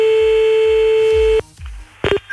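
A telephone number is dialed to call someone back. A steady electronic tone sounds for about a second and a half and cuts off, then a few short dialing beeps follow near the end.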